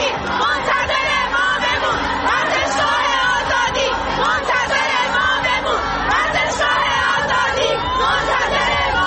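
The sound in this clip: A stadium crowd chants slogans and shouts after a football match, a dense, loud wall of many voices that carries on without a break from start to finish.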